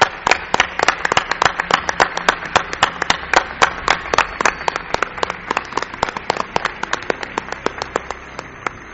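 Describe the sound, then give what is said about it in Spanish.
A studio audience applauds with steady rhythmic clapping, many sharp claps at an even, quick pace, loud at first and easing slightly toward the end. “Yo quiero un aplauso para mi buen amigo, querido Gonzalo Pérez Sarró”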